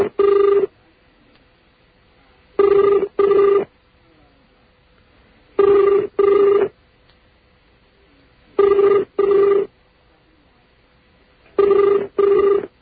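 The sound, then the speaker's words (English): A telephone ringing in five evenly spaced double rings, a muffled, warbling tone likened to an underwater ring, heard alone. “That sounds like a ring. Sounds like an underwater ring.”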